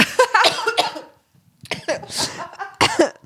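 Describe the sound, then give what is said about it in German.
Harsh coughing from a person who has choked on something swallowed: a cluster of several loud, rasping coughs, a brief quiet gap, then another burst of coughs with some throat clearing. “Entschuldigung. Ich habe mich vor lauter Wissen verschluckt.”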